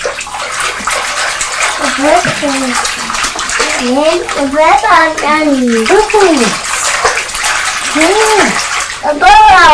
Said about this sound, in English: bubbles, shall we put some bubbles from the blue bottle into the box? Big bang! Right, look, we'll swish it round now. Swish it round.